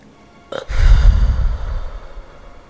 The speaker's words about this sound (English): Deep breath in through the nose and out through the mouth.